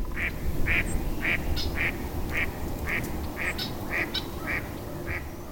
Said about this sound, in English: you'll know there's a female or Susie around, since they're the ones that make this distinctive call. But watch for those handsome male drakes. They won't be far behind.